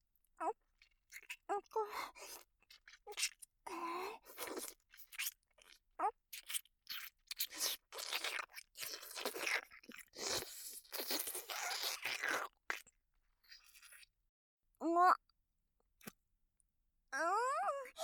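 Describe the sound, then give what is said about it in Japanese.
Licking and eating chocolate: many wet, crunchy mouth sounds of smacking, biting and chewing come in irregular bursts, some brief squeaky sweeps near the end. “もちろん食べるっていうのはチョコを舐め取ってあげるってこと。というわけで、いただきまーす。”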